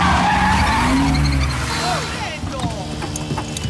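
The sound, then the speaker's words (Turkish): Tires skidding as a truck arrives on a street in Rome, with a loud squealing skid at the start that gives way to a fainter engine rumble and clatter, and voices briefly heard. “30 saniye yeterli. Ve bir kamyon geliyor.”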